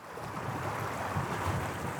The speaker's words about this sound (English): A gush of water runs under the ruins of a factory, the power source of a long-gone paper mill.